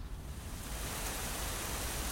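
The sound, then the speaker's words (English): Rain falls in a soft, steady hiss that swells slightly after the first moment and continues evenly, with no voices. “Oh, dear. It's raining now.”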